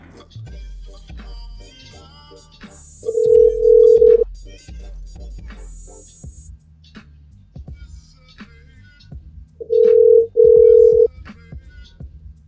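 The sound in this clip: An Indian telephone line gives a busy tone on an outgoing call: steady low beeps in two short groups several seconds apart, with quieter line noise and indistinct talk between them.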